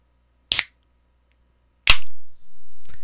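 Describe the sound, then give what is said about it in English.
A gun being cocked makes three sharp metallic clicks spaced about a second apart, each crisp and loud against silence. The middle click rings out with a longer tail. “Is that you cocking your gun? Yes.”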